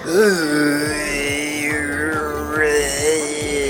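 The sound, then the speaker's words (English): A voice imitates the groaning of a huge one-eyed alien monster as a low, wavering, drawn-out groan. It holds for nearly four seconds, with a faint rhythmic pulsing underneath. “It was looking at me with its one beady eye and started bathing my ship in green light and groaning at me, sort of going,”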